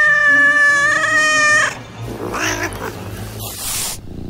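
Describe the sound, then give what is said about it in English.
A vicious cat lets out a loud, drawn-out meowing yowl lasting well over a second, followed by rougher, noisier snarling sounds at lower volume. “a vicious 22-clawed cat”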